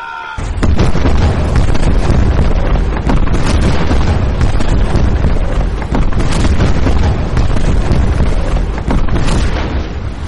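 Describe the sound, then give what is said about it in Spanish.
Cannon fire from American warships carrying 68 deck cannons each, the Black Ships arriving at Tokyo, forms a dense, continuous roar of loud booms and bursts that barely lets up. “cada nave de estas tiene 68 cañones en cubierta. De hecho, desde las defensas no disparan, no contestan al fuego estadounidense.”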